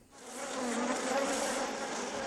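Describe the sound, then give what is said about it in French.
Dense, continuous buzzing of many farm-reared bumblebees inside a hive kept for pollinating tomato flowers, swelling up from a quiet start into a steady, full drone with no voices. “Vous allez être bien ici. C'est une ruche. Elle est pleine de bourdons. Ils ne sont pas là pour s'amuser, ils sont là pour travailler.”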